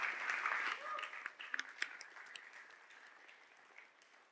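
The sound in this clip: Applause fills a church at Grove Church in Snohomish, faint and fading, with a few distinct claps standing out as a voice speaks over it.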